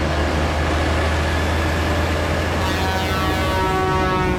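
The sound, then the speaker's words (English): Loud, steady rumble of engine and road noise as a large vehicle overtakes on a road through the tundra, continuous throughout with no voices. “We're about to be overtaken. Pull into the side of the road. Steady on. Pull over.”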